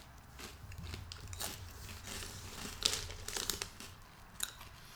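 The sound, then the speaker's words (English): Faint crisp crunching and biting as small, bland assorted crackers are eaten, with a few sharper cracks mixed with crinkly rustling. “I've tried two of the little assorted crackers, and they both taste dumb.”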